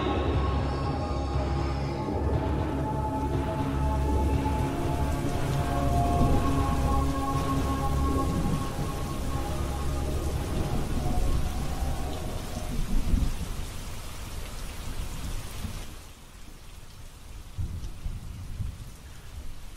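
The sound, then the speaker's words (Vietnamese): Heavy rain pours down in a dense, steady roar of noise that lasts about twenty seconds and eases somewhat in the final few seconds, with no voices. “Trên bầu trời mưa như thác đổ.”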